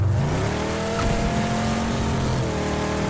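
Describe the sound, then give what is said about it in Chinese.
Car engine noise in the PUBG video game: a loud, steady, droning engine hum with a layered tonal buzz, continuous throughout with no voices. “我觉得这个车的噪音好大，听不到人说话了。”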